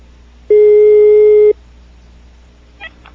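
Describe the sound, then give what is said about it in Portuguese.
A telephone busy tone after a dropped call: a single loud, steady, mid-pitched beep lasting about a second, then quiet with a faint brief click. “a ligação caiu aqui.”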